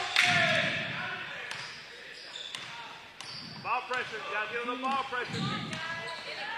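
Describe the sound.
A basketball bounces during a bounce pass in a game, a few sharp thuds standing out under a commentator's continuous talk.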